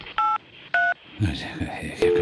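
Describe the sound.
Telephone keypad tones as someone dials a phone: two short dual-tone beeps, then murmured talking, then a final longer tone.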